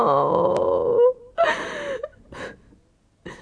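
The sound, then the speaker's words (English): A disappointed teenage girl sobbing: a drawn-out, wavering wail gives way to a few broken, gasping sobs with short pauses between them. “She starts sobbing.”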